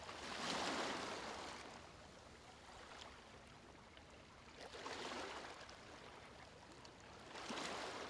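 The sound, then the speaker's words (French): Waves die gently on a rocky beach, heard as faint, hissing surges that swell and recede in three slow washes, with a low, steady wash of water between them. “Les vagues venaient mourir doucement sur la plage rocheuse.”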